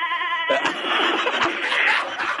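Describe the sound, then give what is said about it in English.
A goat bleats as it is flung from a catapult: a short, wavering, tonal bleat opens, then gives way to a dense burst of noisy, clattering sound with several sharp knocks. “There goes the goat.”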